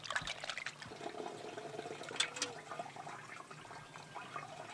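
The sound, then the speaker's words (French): A handful of chili paste is mixed into five litres of water, with faint, continuous sloshing and trickling of liquid and a few slightly louder splashes. “Mélangez une poignée de cette pâte dans 5 litres d'eau.”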